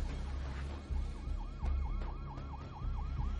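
A passing police patrol car sounds its siren in a fast, repeating yelp, many rapid rising and falling cycles, fairly faint over a low engine rumble.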